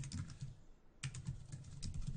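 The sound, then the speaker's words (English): Rapid typing on a computer keyboard while writing code, a dense irregular stream of light key clicks with a short lull just before the middle, and no voices. “I realize I typed this in the wrong spot.”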